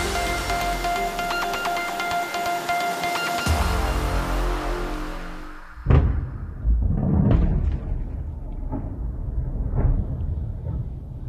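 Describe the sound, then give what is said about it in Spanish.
Deep rumbling booms and a few heavy thuds from American and Israeli air strikes on Tehran roll through a continuous low roar, following a dense layered tonal sound at the start. “Este es el sonido de las explosiones sobre Teherán, de los ataques americanos e israelíes sobre Irán.”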